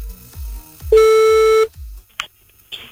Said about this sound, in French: c'est parti, on y va, on appelle. Parce qu'il a la sonnerie, mais elle est violente.